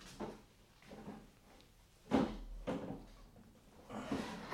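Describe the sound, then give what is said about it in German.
A wardrobe and a chest of drawers are searched, with a few faint knocks, slides and rummaging thuds as drawers and doors are opened and shut, with no voices. “Schau du mal im Kleiderschrank nach. Ich nehme mir die Kommode vor.”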